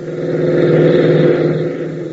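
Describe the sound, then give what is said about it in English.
A jeep races across an airfield, its engine giving a steady mid-pitched drone that swells slightly and then eases off a little toward the end. “Ben, Tank, and Gale race into the hangar, reappearing within seconds in a jeep, and race across the field”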